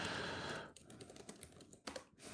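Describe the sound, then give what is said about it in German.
Rapid, irregular clicking of typing on a computer keyboard, many light keystrokes in short bursts with brief pauses, heard on its own without talk. “Also, das tippe ich jetzt natürlich.”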